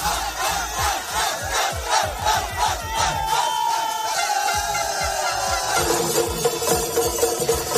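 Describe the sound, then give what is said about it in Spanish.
Football fans parade through the streets of Doha, Qatar, in the days before the World Cup, chanting and shouting loudly over a fast, steady pounding of drums that runs through the whole stretch. “Lo que estás escuchando es un desfile por las calles de la capital, Doha, para animar el ambiente un poco, para animar el cotarro en estos días previos, que se note que comienza ya el Mundial.”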